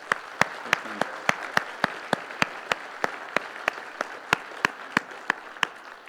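Audience clapping in appreciation of a team member comes as quiet, evenly spaced single claps, many sharp hits in a steady, unhurried rhythm from start to finish.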